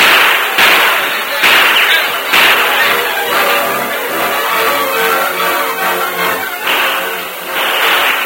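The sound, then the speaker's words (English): Gunshots in a radio-drama shootout between crooks and a sheriff's posse: several sharp, loud cracks burst out at uneven intervals over a dense, noisy, rumbling background. “Use your guns, men. We gotta get away from here.”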